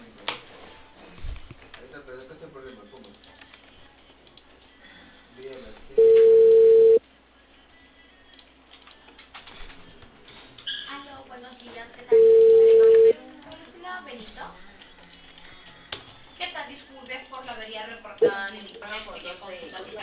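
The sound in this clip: A telephone ringback tone sounds while a call is placed in Peru to arrange a repair visit. Two steady mid-pitched tones, each about a second long, come roughly six seconds apart on a thin phone line, with faint voices and noise between them.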